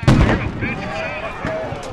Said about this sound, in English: Pepper spray-laced flash grenades finished the job.